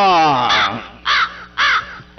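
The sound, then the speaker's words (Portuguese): Macaw calling with loud, harsh, raspy squawks, a few calls repeated at a steady pace, the first drawn out and sliding down in pitch. “Não, isso não é, isso é arara”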